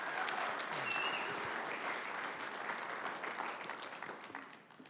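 Applause from a church audience welcoming a visiting pastor, a dense, sustained round of clapping that holds steady for several seconds and tapers off at the end.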